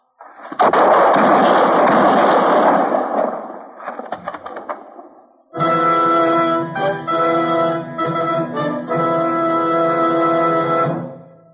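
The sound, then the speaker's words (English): Gunshots ring out in a Gunsmoke radio western drama: a loud blast with a long rumbling tail, a few sharp crackles, then sustained music. “The shots, Matt.”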